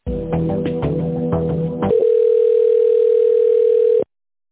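Telephone line tones as a call is transferred to an office extension: about two seconds of pulsing, layered tones, then a steady single high tone that holds for two seconds and cuts off abruptly.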